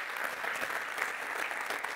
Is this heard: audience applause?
yes